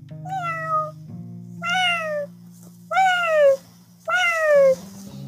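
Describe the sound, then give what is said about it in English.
A voice imitates a cat meowing, giving four drawn-out, harmonic meows. Each one falls in pitch and is fairly loud, with short pauses between them over a steady low hum. “I heard my cat, meow, meow, meow, meow,”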